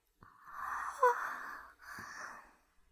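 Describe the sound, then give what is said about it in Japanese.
A yawn: a long, breathy, drawn-out exhale carrying a voiced tone, followed by a shorter breath that trails off. “そんなあくびしちゃって、”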